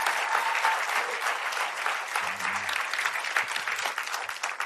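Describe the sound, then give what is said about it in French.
An audience at a morning church service gives a long ovation, with thick, steady applause from many hands at an even level throughout. “je veux que tu lui donnes une vraie ovation et pousse un cri de victoire ce matin”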